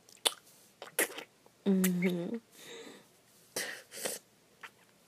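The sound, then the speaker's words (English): A person spitting saliva to lubricate the throat: several short, wet spitting bursts, with a gurgling, throaty voiced sound in the middle. “I was spitting saliva, sorry, I got my throat lubricated.”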